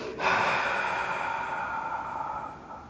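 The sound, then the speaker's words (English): A voice imitates the breath of God with a single long, airy breath that starts abruptly and slowly fades over nearly three seconds, heard alone without speech. “the Ruach, the breath of God. We know it's God. Breathing into the darkness across the waters of chaos.”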